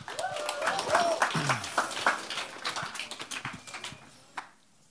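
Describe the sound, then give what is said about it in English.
An audience claps for a high school senior called up to speak, with crisp scattered claps that are lively at first and then thin out and fade to a few last taps. “Y'all give it up for her.”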